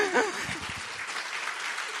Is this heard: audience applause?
yes